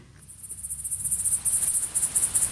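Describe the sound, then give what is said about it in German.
Great green bush-cricket chirping in a rapid, even train of very high-pitched buzzy pulses that swell gradually louder and continue unbroken, with no voices. “Heute also das große grüne Heupferd. Wir haben ein Geräusch, von dem wir hoffen, dass es das große grüne Heupferd gut abbildet.”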